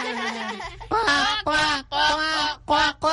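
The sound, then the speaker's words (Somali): A person's voice imitates the call of their pet bird with a run of nasal, honking squawks. The squawks come in several short bursts with brief gaps between them. “maadaama aan jeclahay shimbirtaydana, bal aan mar kale codkeeda oo kale sameeyo.”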